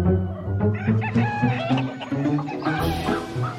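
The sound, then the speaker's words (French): A dominant rooster crows loudly in a strong, harmonic call, with clucking from fowl around it across the short stretch. “mais le coq dominant supporte mal les amours des autres.”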